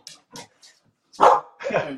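A dog barks: three short, soft yips come first, then two louder, fuller barks.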